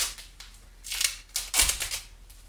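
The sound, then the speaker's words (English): Duct tape being pulled from the roll and wound around a crude knife forged from scrap metal, its blade unevenly shaped and lacking a sheath, giving a few short, sharp crackling rips at a low level with no talk. “we're going to cover it in several feet of duct tape”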